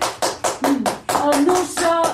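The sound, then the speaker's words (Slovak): Applause breaks out after a performer bows and jumps down from a stage: sharp hand claps in an uneven beat, loud, with children's voices rising over them. “Ozve sa potlesk.”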